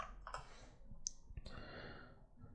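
Typing on a computer keyboard gives a few faint, sharp clicks and taps at an irregular pace, with no talking.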